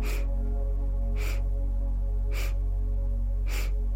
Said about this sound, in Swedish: Så om vi tänker oss att en full inandning då består av fyra sniffningar på det här sättet.